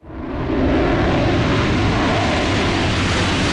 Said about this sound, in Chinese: 空军驻南方某机场，数架苏-35战机划过夜空，一场跨昼夜战术训练正在展开。